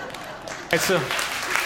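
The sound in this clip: Audience applause, a steady wash of clapping that carries on throughout while a voice starts talking over it partway through.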